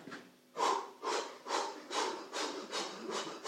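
Someone demonstrating hospital breathing exercises with a long series of rhythmic, forceful, breathy huffs, each a soft rasping rush of air, evenly paced and fairly quiet.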